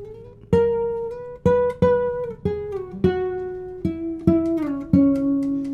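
A concert guitar played as single plucked notes: eight clear notes stepping gradually lower in pitch, each with a sharp attack and a long, ringing sustain, with no voices.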